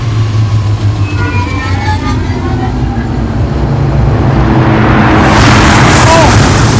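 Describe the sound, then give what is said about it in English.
Spaceship landing on the moon in a video game, a loud, continuous roaring rumble that swells and brightens toward the end as the landing gear engages. “But guys, we're hitting in the landing gear. we're about to land on the fucking moon.”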